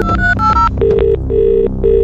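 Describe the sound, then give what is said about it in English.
A telephone rings in a few loud electronic trilling bursts, each a short run of pulsed tones, heard alone with no voices. “that your phone rings, well, round about now”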